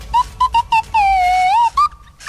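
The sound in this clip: A swanee whistle plays a pop song melody, starting with a few short, bright notes. A long wavering note dips and climbs, then further sliding notes follow, with no voices.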